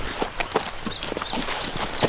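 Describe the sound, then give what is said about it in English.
Horse hooves clip-clop as a rider travels on, a quick, irregular run of many soft hoof beats at a fairly low, even level. “She pulled herself back into the saddle and rode on.”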